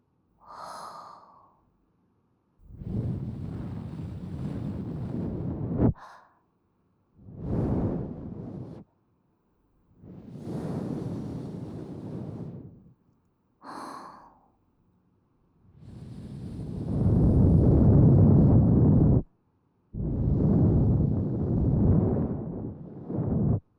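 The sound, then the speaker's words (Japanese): Soft breath is blown close into a listener's ear in five long, airy whooshes with pauses between them. The last two are louder and fuller. “軽くお耳に息を吹きかけていきます。こうやって。”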